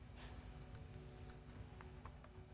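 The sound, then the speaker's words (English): Keys on a computer keyboard clatter in quick, irregular clicks while someone types commands to shut down a game server instance, the keystrokes faint and continuous against a low background hum. “We get you to type a lot in order to shut it down.”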